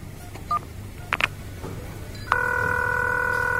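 Telephone call being dialled: a few short, separate keypad beeps, then a steady continuous ringing tone that holds unbroken to the end.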